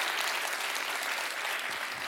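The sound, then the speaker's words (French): Audience applause at a live show, dense and even clapping that holds steady for the whole stretch without a break. “Qui a vu le spectacle de Jérôme Niel par applaudissement?”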